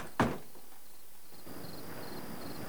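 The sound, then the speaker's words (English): A barred front gate is shut with a single sharp clank that dies away fast, leaving a faint steady hiss. “She hurries inside and he closes her front gate.”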